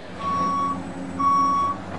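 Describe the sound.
Reversing beeps from construction equipment: two long, steady, high-pitched beeps about a second apart, each lasting roughly half a second, over a low engine rumble.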